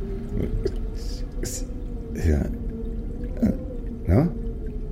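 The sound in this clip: Water trickles thinly from a tap as it is turned off, a soft pouring hiss with a few faint drips beneath a man speaking.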